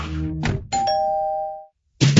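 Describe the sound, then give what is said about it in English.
A bell marks the final dismissal of the school year: a single clear electronic chime tone holds for about a second and then fades, with brief muffled sounds before it and another sound starting after a short silence. “There it is, the final bell of the year.”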